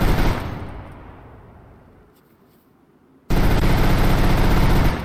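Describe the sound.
A space gun firing in a video game: a loud blast that fades away over about two seconds, a near-silent gap, then a second loud, steady burst of rapid fire that cuts off abruptly.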